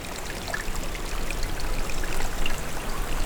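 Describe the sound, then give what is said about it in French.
A small trickle of water flows gently and steadily, a continuous soft babbling with no breaks and no other sounds. “Et où s'écoule délicatement un petit filet d'eau.”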